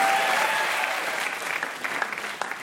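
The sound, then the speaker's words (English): Audience applause on a puzzle game show stage, thick steady clapping that gradually thins and softens over a few seconds. “How about a hand for Ashley?”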